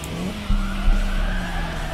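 Hard braking and a skidding car, with a steady tire squeal sustained over a low engine drone for about two seconds. Two brief thumps break through near the middle.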